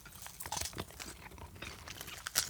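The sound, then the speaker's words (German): Chewing and crunching on a spicy, chili-dusted chewy candy called Spicy Chuba after a big bite: irregular soft crunches, smacks and sticky tearing noises, with no talking. “Also, wir haben beide einen großen Biss genommen.”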